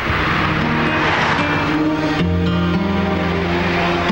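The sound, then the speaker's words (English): Traffic speeding along a wet expressway gives a continuous, steady rush of tyre and engine noise, with sustained low tones layered over it throughout. “The roads are wet as traffic speeds along the expressway.”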